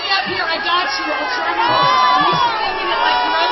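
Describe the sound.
A live audience shouts back mixed responses, overlapping cheers, whoops and calls forming a loud, jumbled burst of crowd noise with some voices standing out.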